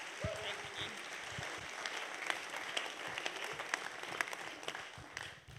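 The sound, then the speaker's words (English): Audience at a church service applauding to welcome a speaker: a mix of steady clapping and sharper individual hand claps that carries along, then drops away at the end. “So please, let's just put our hands together and welcome Hannah Heather.”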